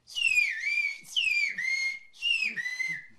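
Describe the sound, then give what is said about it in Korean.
A name whistled in a whistled language: three shrill, high-pitched whistled phrases, each swooping and gliding downward before levelling off, separated by short pauses. “휘파람 언어로 우리 이름을 다시 한번 부탁드렸습니다.”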